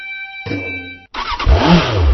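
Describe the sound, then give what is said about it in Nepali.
A Bangladesh-made Runner motorcycle engine revving: a short engine burst, a brief break, then louder, rougher revving that runs to the end. “आइपुग्यो बङ्गलादेशमा निर्मित runner मोटरसाइकलहरू Nepali बजारमा आइपुग्यो।”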